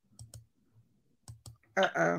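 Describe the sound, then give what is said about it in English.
Keyboard typing: a few soft, isolated key clicks at irregular spacing, then a sudden, louder and denser clatter of keystrokes at the end. “I typed it in wrong.”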